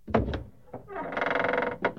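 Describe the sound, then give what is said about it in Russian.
A palace door opened by a guard before the ruler of Egypt, giving a few short thuds followed by a long, strained creaking groan with a final knock. “Отвори двери, стражник.”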